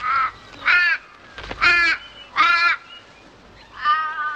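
Crows cawing as birds fly overhead: five harsh, nasal caws in an uneven rhythm, loud and alone, with a longer gap before the last call.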